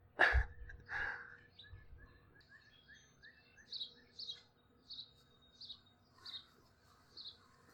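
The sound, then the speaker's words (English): A blue jay calls from the top of a maple near a feeder on a chilly early morning: a series of short, repeated calls that grow louder and more spaced toward the end, heard alone. “That's blue jay language for fuck this guy. He's sitting up top of a maple, right near the feeder, kind of looking down at me.”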